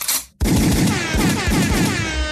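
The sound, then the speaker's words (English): Gunshot sound effect, a sharp burst after a brief silence that rolls into a dense, rapid rattle of repeated blasts, loud and sustained with no talk over it. “could I have a gunshot and an air horn?”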